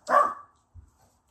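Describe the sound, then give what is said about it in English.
A single loud bark from a dog, followed by a faint low thump and then quiet. “This dog, Hershey”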